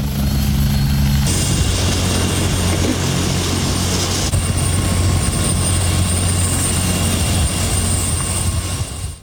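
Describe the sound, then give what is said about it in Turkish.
A loud, continuous engine and rotor drone from an ambulance helicopter transferring a patient to a city hospital in Erzurum, steady throughout with a shift in its tone partway through, with no voices. “ambulans helikopterle Erzurum'a sevk edildi ve şehir hastanesinde tedavi altına alındı.”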